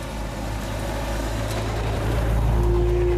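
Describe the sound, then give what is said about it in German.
A car engine drones steadily as the vehicle drives, a low continuous rumble with a faint higher whine appearing near the end. “»Wir müssen dahin!« Sofort fahren zur Villa Aurora.”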